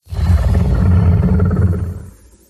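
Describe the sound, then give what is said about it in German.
A dinosaur roar sound effect built into the film Jurassic Jelena: a single deep, loud, rumbling roar that starts abruptly, holds for about two seconds and then fades away. “Und zwar haben wir ja in den Jurassic Jelena-Film diese Dinosaurier-Geräusche eingebaut. Und das würde ich dir auch einfach nochmal vorspielen, dass du so ein bisschen weißt, worum es geht. Und zwar dieses Geräusch hier.”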